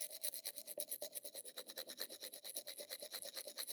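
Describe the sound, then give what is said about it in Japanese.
A toothbrush scrubbing another person's teeth at night: a fast, steady back-and-forth rhythm of soft, bristly rasps, faint throughout and with no talk. “こうやって、あなたの歯を私が磨くようになったのって、いつからでしたっけ？”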